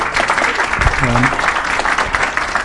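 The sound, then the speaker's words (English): Church audience applauding on Pastor Appreciation Day: a big, sustained round of clapping with a fairly even, rough texture, and a voice briefly audible partway through. “let's give you also one more big round of applause”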